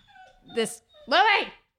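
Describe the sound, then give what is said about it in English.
A dog whimpering outside, two short whining cries with a brief pause between them, the second longer and fuller, heard on its own. “my dog's dying outside. He's fine.”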